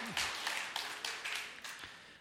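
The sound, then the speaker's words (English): Audience applause at a live talk-series event on mental illness: a faint, dense wash of clapping with a few sharper claps standing out along its length. “The applause mystifies me, but I'll take it.”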